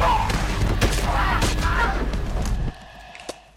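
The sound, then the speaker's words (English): Gunfire in an audio drama as infected attackers are shot down: a loud, dense burst of rapid shots over a noisy din, breaking off abruptly into near silence. “Doyle guns down three infected who were chasing him.”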